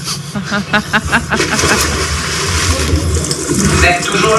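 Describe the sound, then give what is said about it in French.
Water churns and rushes as a weighted diver plunges in, a dense, steady splashing and bubbling that grows slightly louder toward the end, with a voice talking over it. “Alors, Zou, je plonge.”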